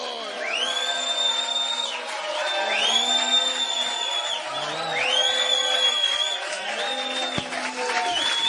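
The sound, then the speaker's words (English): An audience shouts praise to God and applauds to welcome their bishop. A dense, sustained mass of cheering voices with rising and falling cries holds steady throughout. “Ladies and gentlemen, shall we stand to our feet with a shout of praise unto God? Let's welcome our dear and our own Bishop.”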